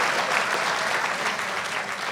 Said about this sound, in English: Okay, I guess go ahead and clap.